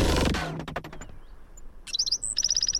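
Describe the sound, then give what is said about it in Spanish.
Song of a black-throated sparrow, a desert bird, heard as a quick series of high, bright chirps and trills that follows a loud, fading burst of sound. “El zacatonero garganta negra, Amphispisa bilineata.”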